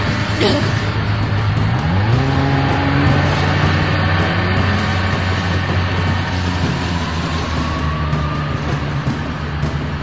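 A car engine at full throttle during a chase: a loud, continuous roar whose pitch climbs sharply early on and then holds high, with a tonal whine riding over dense rumble.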